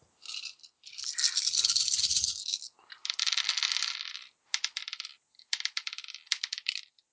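Twelve dice rattle and clatter as they are shaken and rolled during a tabletop game. A few loud bursts of bright clicking and rattling are separated by short pauses.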